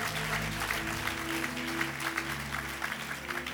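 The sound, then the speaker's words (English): A church audience claps during a worship service: a steady, dense wash of applause that holds throughout, with sustained low musical tones beneath it. “Come on, give the Lord a mighty clap of”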